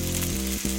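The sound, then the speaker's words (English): Steak sears in its juices on a Weber Searwood pellet grill, giving a loud, dense sizzle that dips briefly near the end before resuming. “That's the sound of steak searing in its juices on your new pellet grill.”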